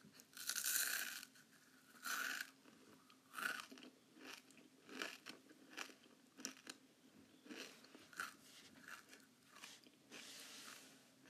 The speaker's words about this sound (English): Another common type of ASMR sounds in mukbangs is chewing, and it sounds like this.